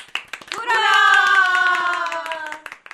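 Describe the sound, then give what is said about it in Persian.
Applause of scattered hand claps opens and closes the moment, with a sustained tonal sound ringing out through the middle. “آفرین، یک کف مرتب برای خودتون بزنید.”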